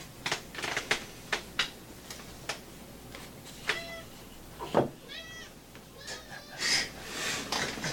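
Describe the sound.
A cat that wants to play meows several times, with short rising and falling cries, amid many scattered sharp clicks and taps and a steady low background hiss.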